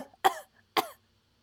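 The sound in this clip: Two harsh, quick coughs from a tickle in the throat, each a short, sharp burst about half a second apart, standing alone against silence.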